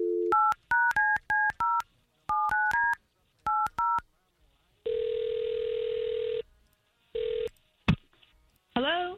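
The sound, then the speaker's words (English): Touch-tone telephone dialing to place a call: quick bursts of paired keypad beeps in short groups, then a long steady tone, a shorter tone, a sharp click and a rising swish at the end. “So let's give her a call and see if we can't get the both of you talking.”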